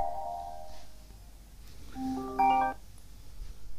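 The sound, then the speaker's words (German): A phone rings with an incoming call, giving short, faint electronic tones: a brief tone at the start, then a louder, chime-like burst of stacked tones near the end. “Oh, sie ruft mich an.”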